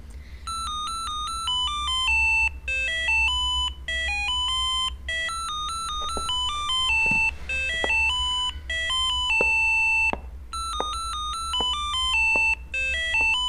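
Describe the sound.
A telephone rings with a melodic electronic ringtone: short bright tonal phrases repeat loudly and continuously, with brief gaps between phrases and no voices.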